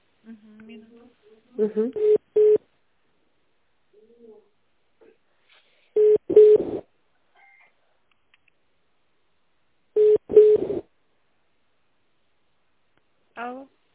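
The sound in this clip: A telephone ringing tone on a call being placed, heard as three steady, mid-pitched bursts about four seconds apart, with faint voice-like sounds in between and a short final burst at the end.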